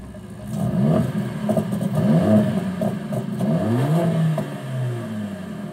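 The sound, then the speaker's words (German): A high-performance Mercedes-AMG engine revs repeatedly, its loud pitch sweeping up and falling back across several throttle blips in a steady, sporty roar. “Ein Hochleistungsaggregat, das mit effizienter Kraftentwicklung und sportlichem Sound begeistert. Bei Mercedes AMG gibt es sogar Soundkostproben für die Ohren.”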